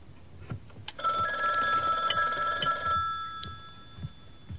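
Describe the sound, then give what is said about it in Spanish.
A telephone rings once with a bright, buzzing tone of about two seconds, faint over low background noise. “Anda, coge el teléfono.”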